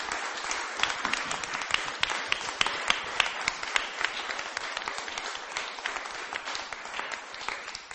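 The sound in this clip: An audience claps in praise at a church service, a dense, steady wash of applause that lasts the whole clip at an even level without a clear break.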